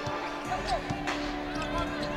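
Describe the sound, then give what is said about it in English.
A basketball is dribbled during a professional game, with several low thuds of the ball bouncing on the court under steady background noise and a voice. “Cameron Payne with the dribble.”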